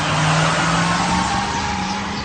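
Car engine roaring as the vehicle drives through a crowd in a radio drama effect, a steady, loud, unbroken drone with a sustained low hum, no voices.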